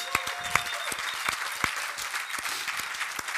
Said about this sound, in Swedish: Yes, ge en applåd till honom.